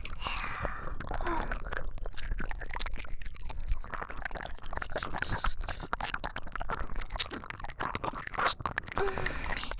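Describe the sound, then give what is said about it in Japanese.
Gentle ASMR biting and chewing on an ear: a steady stream of many small, soft, wet mouth clicks, smacks and faint crunches, close and quiet throughout. “甘噛みにしといてあげますよ。”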